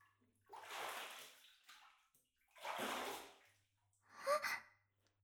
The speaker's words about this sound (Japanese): そろそろお背中、お流ししてもよろしいでしょうか。